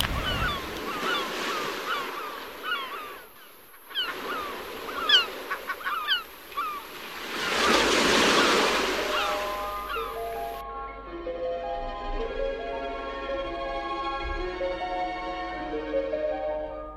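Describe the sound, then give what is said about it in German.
Sea waves break on a sunny beach at Premia de Mar, a broad rushing surge swelling midway, mixed with sharp chirping calls early on and a steady layer of tonal sound later. “Gelesen am Strand von Premia de Mar, bei herrlichem Sonnenschein und Wellenrauschen.”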